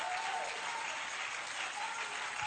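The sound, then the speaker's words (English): Hand clapping from an audience during a church sermon forms a continuous, dense patter of applause that stays loud and even from start to finish. “Oh, you didn't clap those hands.”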